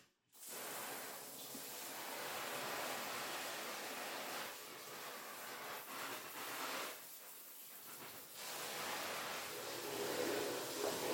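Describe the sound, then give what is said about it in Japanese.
Running water rinsing a body and a mat, a soft, steady rushing spray that continues throughout with slight swells and dips in strength. “じゃあ一旦体とマット綺麗に流そっか。”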